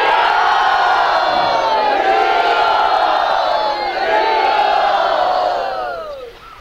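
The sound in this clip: An audience cheers to welcome a speaker, with a loud, sustained roar of many whooping, shouting voices that holds steady throughout and fades out at the end.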